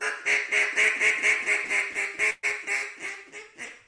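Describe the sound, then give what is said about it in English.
A duck call device imitating waterfowl quacking during waterfowl season: a steady, rhythmic run of many loud, nasal quacks with one brief break partway through, with no talk. “That's the sound of waterfowl because it's waterfowl season.”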